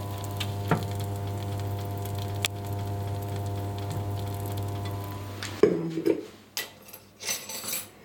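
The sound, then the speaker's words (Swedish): Food simmers quietly in a pot, with soft bubbling and sizzling under a steady low hum. Near the end come a few louder squishy, clinking sounds. “Den har fått färg och puttrar lite. Ja. Det brukar jag lyssna efter. Att maten är varm, att det låter i den.”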